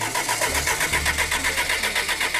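A worn-looking Lancia Delta Integrale's engine is cranked by its starter, giving an even, rhythmic run of chugging pulses throughout without the engine catching and roaring to life.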